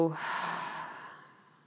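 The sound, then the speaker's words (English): One deep breath exhaled slowly, a breathy, airy rush that starts full and steadily fades out over under two seconds. “Biggest breath you've taken all day. Go ahead and inhale. Holding at the top for a moment. Exhale. Let it go.”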